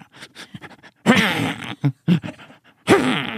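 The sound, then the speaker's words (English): A human voice imitates a twitchy dog's noisy breathing. Short snuffling puffs lead into a long, rasping, groaning breath, then a few quick snorts, and the sequence ends with another long, rough, wheezy breath. “And then it'd make this noise when it was breathing. Like,”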